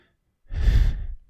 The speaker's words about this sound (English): Let me give you one more type of breathe.